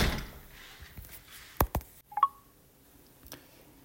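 A door with a smart lock is pulled shut on leaving a house: two sharp knocking clicks, then a pair of short electronic beeps, and later a single faint click, all without speech.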